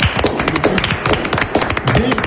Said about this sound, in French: Peut applaudir.